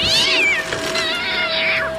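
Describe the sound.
A cat meows in two drawn-out, high-pitched calls with a strained, caterwauling edge, loud and clear with no talk.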